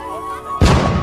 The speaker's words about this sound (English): You know, these coconut bombs, you don't have to worry about them. They work quite well.